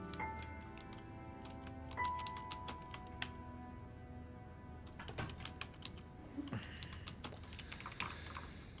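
Typing a message on a computer keyboard: many quick, irregular key clicks, fairly faint and steady throughout, with a few sharper taps standing out.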